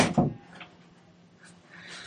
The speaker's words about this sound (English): Let me close the door.